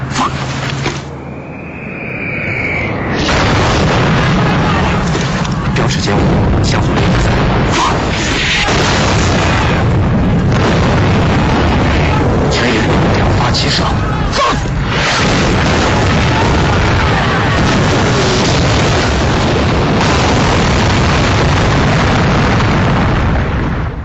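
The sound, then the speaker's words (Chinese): An artillery battalion shelling a bridge: a dense, continuous barrage of heavy booms and explosions that roars loudly for the whole stretch with no pause. “全营射击横城大桥，标尺475，向右075，五连四炮，一发。”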